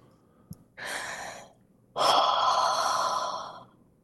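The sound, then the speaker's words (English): Deep human breath drawn in and let out: a short airy inhale followed by a longer, louder, rushing exhale, clear and alone with no talk. “do you think we could take a deep breath on air just to kind of kick this off?”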